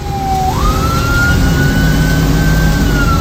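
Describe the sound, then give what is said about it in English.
Siren wailing inside a responding fire department vehicle arriving at a structure fire: a loud, steady engine and road roar fills the cab while a single siren tone steps up early, then holds high and constant. “This is audio and video was captured inside the responding BGFD vehicles as they arrived on that scene on Friday morning.”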